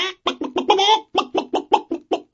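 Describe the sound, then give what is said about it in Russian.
A hen clucking in a rapid series of short, clipped clucks, with one longer drawn-out call early on, keeping an even, jerky rhythm. “а курочка кудахчет.”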